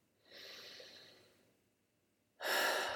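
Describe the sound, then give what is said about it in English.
A deep breath in and out during a calming hands-on-heart exercise: a soft, airy inhale, a short pause, then a louder, rushing exhale. No one speaks. “Put your hands on your heart. Take a deep breath.”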